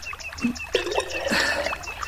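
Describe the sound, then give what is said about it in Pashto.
Water pours and trickles into a jug as it fills, a continuous splashing, gurgling flow that thickens through the middle and keeps going to the end, with no voices. “دا دې منګی ډکوم.”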